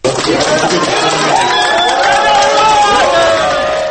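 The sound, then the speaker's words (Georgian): Supporters shout and cheer outside a prison, a loud, continuous mass of excited overlapping voices that starts abruptly and stays strong to the end. “მას დღეს საპატიმროს გარეთ ყოფი მისი მომხრეები აჟიოტაჟითა და შეძახილებით შეხვდნენ.”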